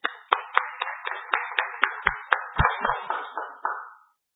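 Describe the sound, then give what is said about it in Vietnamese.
Rhythmic clapping congratulating newly ordained priests at a church service: a steady run of sharp, evenly spaced claps that continues for about four seconds before stopping. “Chúng ta cùng vỗ tay chúc mừng các tân chức.”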